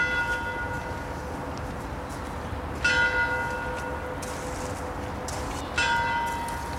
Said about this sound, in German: Und das nenne ich mal Zufall, dass die Uhr ausgerechnet jetzt schlägt. Ja, also wir haben jetzt in diesem Moment sehr große Glück gehabt. Wir haben jetzt 11 Uhr.